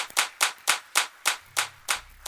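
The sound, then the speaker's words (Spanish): Rhythmic unison hand clapping from a church audience during worship, sharp claps falling in steady time at roughly three per second across the whole clip. “Regálale palmas al Rey de Reyes en esta hora.”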